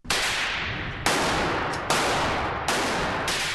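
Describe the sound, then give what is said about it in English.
Four loud gunshots ring out at a busy pistol range in Northern Virginia, spaced nearly a second apart, each a sharp crack that trails off slowly. “The pistol range here is busy today.”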